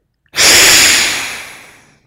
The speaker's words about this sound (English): take a deep breath through both nostrils and begin side one, closing, and exhale side one.